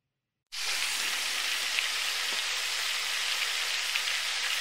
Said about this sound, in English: are you ready to make sure the fryer is nice and crispy?